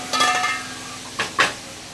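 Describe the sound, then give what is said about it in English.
A lid goes onto a pan of cauliflower cooking with caramelized cumin and asafoetida after a sprinkle of water. A soft hiss and clatter come first, then two sharp metallic clinks close together. “A sprinkle of water. And then cover it.”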